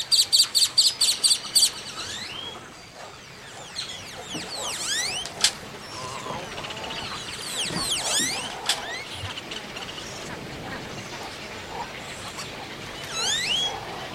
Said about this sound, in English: Living on Earth's Jeff Young joined Audubon scientists in this avian haven as they prepared for possible impact from the Gulf oil spill. He sent us these sounds.